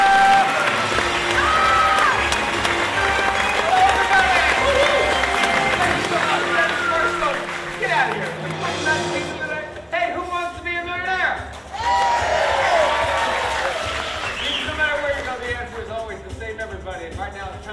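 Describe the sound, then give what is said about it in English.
Audience applause and cheering greet a comedian hosting a live trivia game show: a dense roar of clapping in the first half, then thinner noise with voices shouting over it. “Put your hands together and make as much noise as you possibly can for Kevin Broussard!”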